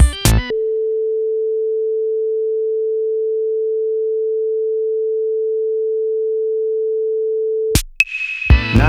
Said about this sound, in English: Play the test tone again, but from the right speaker.